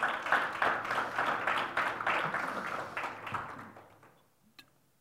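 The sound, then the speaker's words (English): A church audience applauding: a short burst of many hands clapping that tapers off and fades to near silence, with a couple of faint clicks at the end. “Can we just take a moment and give God a hand? Just yay, God.”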